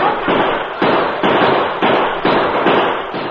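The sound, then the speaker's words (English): Gunfire in a shootout, with bullets fired into a rocky cave: a steady run of loud, sharp shots about every half second, each trailing into a harsh, noisy ring. “Bullets flew into the cave and glanced off rocky walls and ceiling.”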